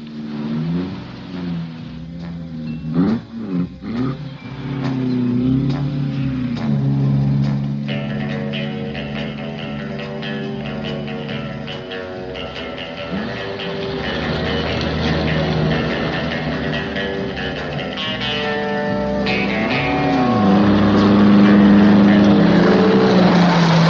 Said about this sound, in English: It also leads to the funniest car chase scene I think I've ever seen.